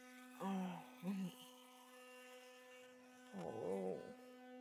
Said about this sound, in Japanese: この電動歯ブラシを考えた人、天才だよね。磨くの超楽になったし。